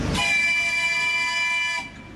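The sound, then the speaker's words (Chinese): A small children's park train in Harbin sounds its whistle as it pulls away from the platform: one steady, sustained harmonic tone that holds for about a second and a half, then cuts off abruptly. “汽笛又一次鸣响，小火车缓缓驶出站台。”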